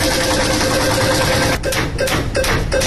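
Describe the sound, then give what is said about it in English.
A month prize wheel for a birthday lotto giveaway spins with a dense, steady rattling whir, then a few sharper ticking clacks near the end. “We're about to spin the month wheel.”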